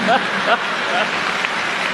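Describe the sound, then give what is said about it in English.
An audience bursting into dense, steady applause that fills the whole stretch, with voices faintly audible through the clapping. “Oh, what a guy. The audience exploded.”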